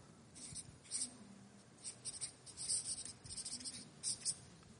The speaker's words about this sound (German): das schreiben wir auch noch auf